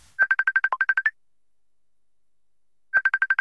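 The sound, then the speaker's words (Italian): A telephone ringing tone plays while a call is being placed. It comes as a fast, even train of about a dozen bright electronic beeps, then a silent pause, then a second burst that is cut off. “Lo chiamo immediatamente.”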